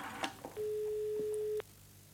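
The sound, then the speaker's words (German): A telephone line tone sounds while a number is being called. It is a single steady, mid-pitched beep lasting about a second, over a faint low background hum, with a few soft knocks before it. “Jetzt konnte sie die Nummer anrufen, die Helga ihr für den Notfall gegeben hatte.”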